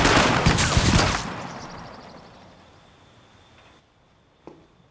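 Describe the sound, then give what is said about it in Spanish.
A firing squad fires a rifle volley on command: a loud crackling blast at the start, then a long fading tail, and a faint single click near the end. “¡Carguen! ¡Apunten! ¡Fuego!”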